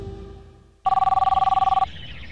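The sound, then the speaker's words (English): A telephone rings for an incoming caller: one loud burst of rapid, even bell-like pulses with a bright two-tone ring. It lasts about a second, then cuts off and leaves a low steady background. “We're getting a caller who has a very pertinent question”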